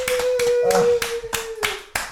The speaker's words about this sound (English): Let me hear some claps for that.